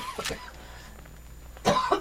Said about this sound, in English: at first I need to cough, but I'm going to try to get through this without, I have to cough.